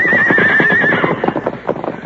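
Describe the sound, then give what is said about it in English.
Horses whinnying as they are unhitched from a wagon and driven off, a high wavering neigh in the first second followed by the uneven clip-clop of hooves. “Meanwhile, Dirk finished unhitching the horses. Get going. You two get along there.”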